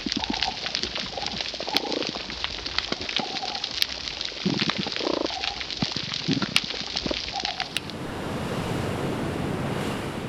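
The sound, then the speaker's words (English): Coral reef ambience with a dense, steady crackle, scattered short tonal animal calls, and occasional sharp clicks. Near the end the texture smooths into an even hiss. “take us out with some wonderful animal sounds. Okay. This is some reef sound. This will be nice.”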